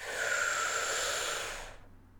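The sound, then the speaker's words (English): A person breathing in deeply during a guided meditation, one long, steady airy inhale that stops abruptly after under two seconds, leaving faint quiet. “And I'm going to breathe it in, just feel it fully.”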